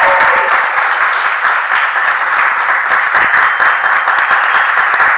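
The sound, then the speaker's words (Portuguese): Office staff clap after closing a sale, a loud, continuous burst of applause that sounds thin and band-limited, as if heard through a telephone line, staying at a steady level for about five seconds. “Me desculpa pelo barulho, que quando o pessoal faz uma venda aqui, a gente costuma aplaudir.”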